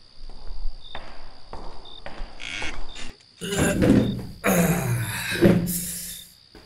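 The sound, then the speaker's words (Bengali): Several footsteps on a hard floor, then a door swinging and being shut with a creak and a heavy knock at a police inspector's home; a faint steady whine runs underneath throughout. “এক minute বসুন আমি একটু দরজাটা দিয়ে আসছি”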